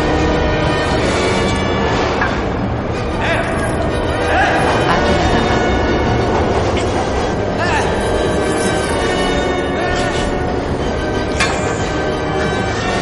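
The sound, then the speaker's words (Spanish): A train approaching a station platform: a loud, dense, continuous rumbling roar fills the whole stretch, with sharper metallic clanks standing out at intervals. “Otro tren se acerca”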